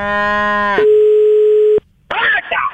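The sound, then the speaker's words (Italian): A steady telephone dial tone sounds for about a second while a call is placed. A brief buzzy harmonic tone comes before it, and the dial tone cuts off abruptly before a voice starts speaking. “facciamo una cosa: visto che sei a Milano, lo chiamo adesso. Sì? Lo chiamo e ci parli tu.”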